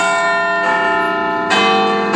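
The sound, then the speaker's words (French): A bell rings to open the sheep auction at a livestock market in Melton Mowbray. Several loud, resonant strokes sound alone, each ringing on into the next. “Cette cloche-là, c'est celle qui annonce par contre le début des enchères aux moutons du marché de Melton Mowbray.”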